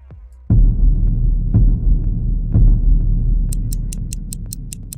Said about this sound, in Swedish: Starta klockan, här kommer 2022 under 10 minuter.